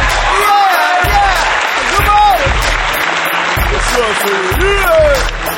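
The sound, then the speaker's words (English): Audience clapping, loud and steady throughout, mixed with cheering and a man's voice shouting excitedly over the dense applause. “Yeah! Come on! Thanks for clapping!”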